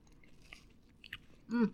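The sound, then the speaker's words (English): Faint, crisp crunching and chewing of chocolate-filled wafer cookies comes in a few soft bites, followed by a short, louder voiced sound at the end. “They look like your normal Voortman cookie with the chocolate in the middle. They taste like magic.”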